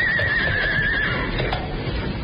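Horse neighing, a sound effect in a radio comedy set in a mountain storm: one high wavering whinny that falls in pitch over about a second, over a steady noisy background.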